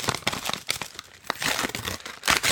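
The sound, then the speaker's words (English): A paper envelope is torn open during an awards announcement, giving a few bursts of crisp crinkling and ripping paper with short pauses between them. No talking is heard. “I got the envelope. How about if I just open up the envelope?”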